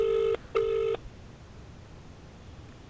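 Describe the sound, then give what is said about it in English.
Ringback tone of an outgoing telephone call on speakerphone: two short, even tone bursts with a brief gap, a longer silence, then another burst starting at the very end. “Oh, no, they're not going to answer, are they? No. Come on, Planet Ice Cream. We're going to leave a voicemail.”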